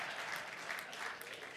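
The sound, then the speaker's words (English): An audience applauds a cook at a morning gathering. The clapping is dense and steady but fairly soft, continuing evenly throughout. “Let's give it up for him. And as long as you're clapping, let's give it up for the pig this morning, too, all right?”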